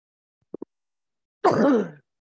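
One short, rasping throat clearing to ease a tickle in the throat. Two faint clicks come just before it, with silence around them.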